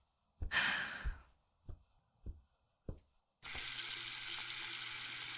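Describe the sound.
Tap water running steadily into a sink to wash a messy load, a continuous bright hiss that starts abruptly after a breathy sigh and a few short, soft knocks.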